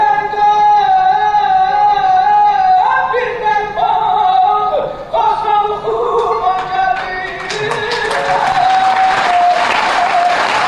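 Applause at a sold-out mugham concert swells under sustained melodic music, the clapping growing denser and louder over the last few seconds.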